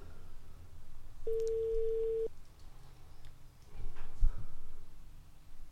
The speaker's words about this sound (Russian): А пока, пока мы уже звоним, да? Мы уже звоним. Звоночек.